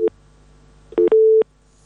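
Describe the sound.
Telephone tones sound after a call is disconnected: a brief beep, a pause, then a short beep followed by a longer steady tone, with quiet between.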